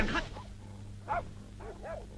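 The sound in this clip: A dog yelps and whimpers during a stage comedy scene, with a few short, fairly faint bursts spread over a steady low hum.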